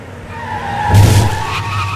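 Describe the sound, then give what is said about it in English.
Tires skid as a stolen SUV speeds along a street, a loud screech rising over a steady engine rumble near the middle and then easing back to the engine. “Dzhokhar jumps into the stolen SUV and speeds toward the massive bodies still brawling on the pavement.”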